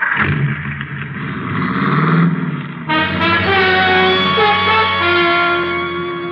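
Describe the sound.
A car starts to drive off, its engine giving a loud, broad roar for a few seconds before settling into a steadier, tonal drone.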